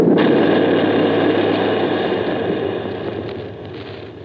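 A gun fires a shell at a stopped tripod machine: a loud, broad roar that fills the whole clip and slowly dies away over about four seconds, with no voices.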